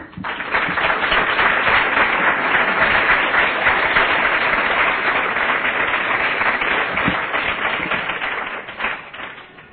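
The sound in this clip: Sustained audience applause welcomes a speaker at a conference, a dense, even wash of clapping that holds steady throughout and thins out slightly in the final second.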